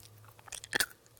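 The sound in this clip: Roasted chickpeas crunched while being eaten, a few quiet crisp bites building to one louder crunch near the end.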